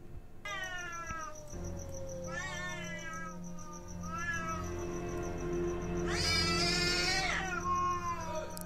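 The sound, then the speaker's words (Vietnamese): A cat screeches and yowls savagely with several drawn-out, harmonic cries of uneven length. The last cry is the loudest and harshest, and there is no talk. “Từ từ, con mèo bước ra. Con mèo đưa mắt nhìn xung quanh, rồi sau đó rít lên những tiếng nghe man dợ lắm.”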